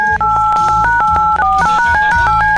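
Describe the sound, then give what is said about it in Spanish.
Touch-tone keypad beeps as a telephone number is dialed for a call, a rapid run of many short two-note tones over a steady low background sound. “Muy bien, tomo el teléfono. Empiezo a marcar en este momento.”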